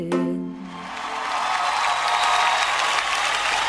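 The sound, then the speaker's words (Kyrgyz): Audience applause at a live talk event rises into steady, dense clapping after a brief voice at the very start, then holds level to the end. “Мына ушундай кол чабуулар сизге жаңырып отурат.”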